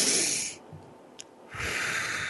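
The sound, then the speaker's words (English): A deep breath drawn in with a soft hiss, followed by a short pause and then a long, airy exhale as it is released. “take a deep breath and release it”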